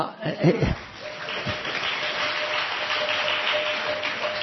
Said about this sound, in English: I didn't say that to get the applause.